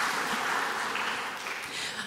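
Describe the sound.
Audience applause for a volunteer who came forward: a fairly faint, even wash of clapping hands continues for about two seconds.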